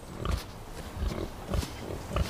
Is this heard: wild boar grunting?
yes